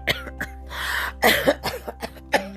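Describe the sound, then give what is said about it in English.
A voice imitating someone coughing inside a bedroom closet: a run of short, raspy cough bursts with a longer throaty stretch early on, fairly loud and with no other talk. “like somebody coughing in our closet”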